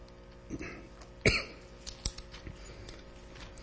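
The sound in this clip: A dry-throat cough comes as one sharp, fairly faint burst, with a few softer throat sounds around it.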